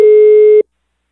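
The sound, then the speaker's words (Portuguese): A telephone line tone sounds while a call is placed, a single steady mid-pitched beep lasting about half a second that cuts off cleanly into silence. “Vou ligar agora mais uma vez.”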